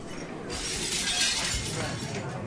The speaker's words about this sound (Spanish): Ay, mira, te pusiste nervioso, se te cayó el vaso encima.